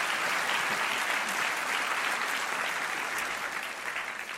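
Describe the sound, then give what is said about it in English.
Audience applause welcoming two speakers onto the stage at a Hot Topics evening: steady, dense clapping throughout that eases slightly toward the end. “So let's put our hands together and welcome them both.”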